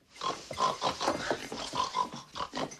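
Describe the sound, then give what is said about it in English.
A woman imitates a pig, oinking at a man in a rapid string of loud, nasal grunts with no talk in between. “Annie oinks at Paul and chases Misery out of the room.”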